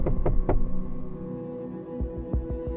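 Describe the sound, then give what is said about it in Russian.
Quiet knocking on a theatre dressing-room door: soft, dull thumps in two short groups of a few raps each, set against a steady low hum with no talking. “Парень глубоко вдохнул, выдохнул и тихонько постучался.”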